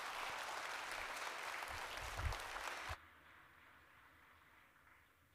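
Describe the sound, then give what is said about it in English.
A church audience at a Sunday service applauds to welcome a Southern Gospel group, with steady, dense clapping that stops abruptly partway through and leaves faint low noise. “Disciple Five, why don't you put your hands together and welcome them as they come.”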